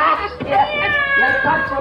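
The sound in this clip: Two cats meow at each other in a run of drawn-out, wavering cries that overlap and trade back and forth at a fairly loud level.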